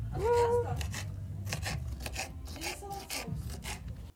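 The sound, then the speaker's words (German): A knife cuts bell peppers for chili con carne, making a run of crunchy, rasping strokes at an uneven pace, with brief voices heard over the cutting. “was machst du? Peperoni schneiden.”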